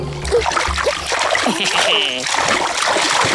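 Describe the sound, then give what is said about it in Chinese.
Fish splash in swamp water in an animated children's story, a few short watery splashes heard among voices talking. “小鱼小鱼，我来了。是鱼的声音。”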